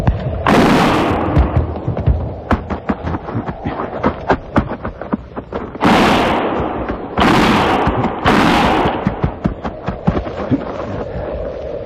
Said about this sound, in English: Start firing.